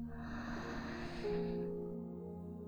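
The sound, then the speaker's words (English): A slow, deep breath drawn in through the nose or mouth as a soft airy rush lasts about a second and a half, then fades. Quiet sustained tones hum underneath throughout. “Take a deep breath in”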